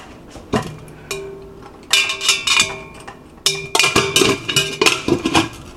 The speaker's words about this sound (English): I'm going to grab the lid from the sink, grab a paper towel, and wipe off the propellers just to make sure that they are nice and clean. I'm going to put the lid back on.